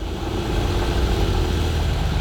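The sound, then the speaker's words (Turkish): A car engine idling roughly and sounding choked, with the idle in need of adjustment. It gives a steady, low, pulsing rumble at constant loudness throughout, with no talk. “Çalışıyor ama sesi daha da kötü çıkıyor. Rölanti ayarı yapmamız gerekebilir. Sanki biraz boğuluyor, öyle değil mi?”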